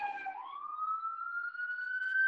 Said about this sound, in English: There's many sirens.